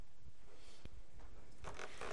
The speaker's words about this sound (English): Okay, so let me draw you a picture here,